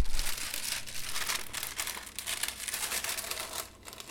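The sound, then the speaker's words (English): Wrapping paper from a fresh roll crinkles and rustles during gift wrapping, a continuous papery crackle with frequent sharper crunches throughout, heard alone. “Putting all your gift wrapping skills to work. Hardly. Oh God, I haven't gift wrapped anything in ages.”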